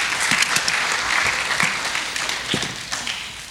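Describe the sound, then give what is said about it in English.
Audience applause during a talk on marriage, dense clapping from many people that is loud at first and gradually softens over a few seconds. “So thank you, Ashley. Give her a hand. Nice. Good job, welcome.”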